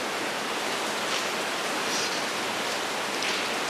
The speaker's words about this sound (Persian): عجب هوایی شد، چه بارونی ها گرفت.